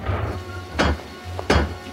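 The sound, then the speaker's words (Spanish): Heavy blows of a door knocker on a church door: two sharp, hollow knocks a little under a second apart, loud over a low, steady background noise. “Golpea con la aldaba que hay en la puerta de la iglesia.”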